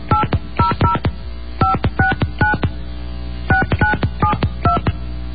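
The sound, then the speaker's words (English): Telephone keypad dialing tones sound in three rapid clusters of crisp, bright beeps, each cluster a quick run of keypresses separated by brief pauses, loud and clear with no voices. “Oops, I misdialed. I'm sorry. It happens. All right, try again.”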